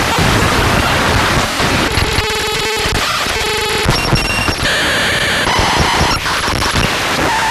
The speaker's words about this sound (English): Percussion.exe. I think I turned an exe file into a WAV file. As you would, and that's exactly how it's going to sound.